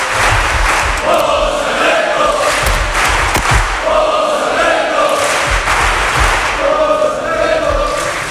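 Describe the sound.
Crowd chanting for a guest on a football show, loud and continuous, with the chant rising in repeated swells of many voices over a rumbling crowd roar.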